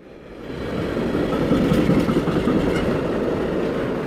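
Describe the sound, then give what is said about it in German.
A long freight train, up to 750 metres, rolls over a railway bridge in Cologne. The loud, steady rumbling roar has faint rail clatter; it swells over the first half second, then holds to the end. “Alle paar Minuten rollen die bis zu 750 Meter langen Güterzüge über die Kölner Südbrücke.”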